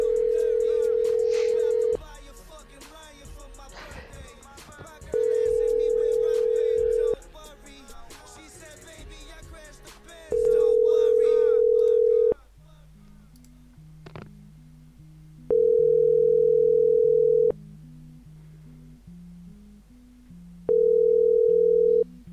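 Ringback tone on an outgoing phone call that goes unanswered: five long, steady, evenly spaced tone bursts with silent gaps, sounding over background music.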